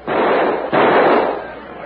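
Rifle gunshots ring out as two loud, rough bursts, each trailing into a long noisy tail that slowly fades.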